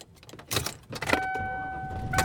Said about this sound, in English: And I am driving home. It's Thursday today, and I am actually driving home.